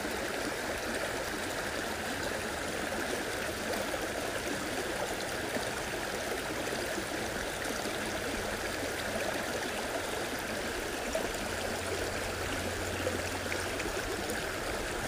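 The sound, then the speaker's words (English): Water flows over rocks in a small, crystal-clear stream, making a continuous gentle babble and trickle. The sound stays soft and even throughout, with no voices. “It's so wonderful to close our eyes and be at this stream.”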